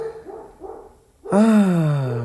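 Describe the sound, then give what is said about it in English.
A household dog lets out one loud, drawn-out bark or howl that slides downward in pitch and slowly trails off after a quieter stretch. “Okay, that's our dog. I don't know if you can hear it.”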